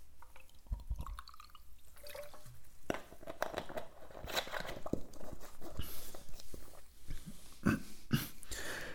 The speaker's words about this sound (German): Und an dieser Stelle trinke ich erstmal wieder was.